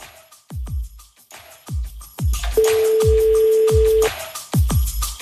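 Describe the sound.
A single steady telephone tone holds for about a second and a half as a call is placed to a listener, set against a rhythmic backing of deep, decaying thumps.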